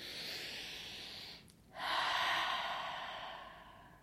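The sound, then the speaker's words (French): A deep breath is drawn in during a guided breathing exercise: an airy breath, a brief pause, then a louder, longer inhalation that gradually fades. “Prépare-toi à inspirer. On inspire.”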